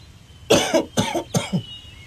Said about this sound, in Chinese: 正说着，门外传入咳嗽声，周父对门外的人说： 哎呀，严先生啊，甭咳嗽，进来吧